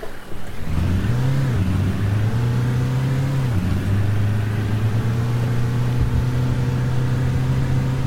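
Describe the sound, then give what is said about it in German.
A car drives off with a loud, steady low engine drone. The pitch climbs briefly early on, then dips partway through before settling back into an even hum. “Ich fahre jetzt einfach mal los.”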